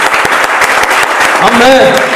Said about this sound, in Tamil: கரங்களை தட்டி கத்தோடைய நாமத்தை நல்ல ஜோர கைதட்டு.